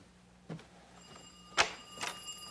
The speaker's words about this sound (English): Oh, that is the phone.